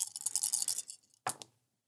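Dice rolled for a check in a tabletop role-playing game: a quick rattling shake, then a short pause and two brief clacks, fairly faint with no talk.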